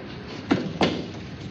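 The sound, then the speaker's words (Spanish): An apartment door is pushed open, giving two soft thuds in quick succession over a steady background hiss. “Empuja la puerta abierta del apartamento a la vez que llama.”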